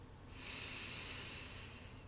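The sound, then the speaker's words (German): A deep breath drawn in through the nose during a guided meditation, one long, soft, airy inhale that swells and holds for over a second, faint and heard alone. “Atme nochmal tief durch die Nase ein.”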